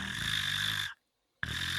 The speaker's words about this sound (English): So I think the animal, I think the cat was snoring.